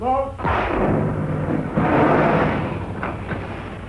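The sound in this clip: A German submarine fires a torpedo at a British escort. A sudden deep boom swells into a sustained, loud rumbling whoosh that slowly fades, with a couple of faint clicks near the end.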